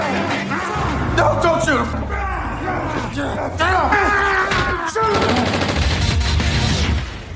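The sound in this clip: Gunfire bursts through an action film scene, dense and continuous across the stretch, mixed with shouting voices and other loud effects.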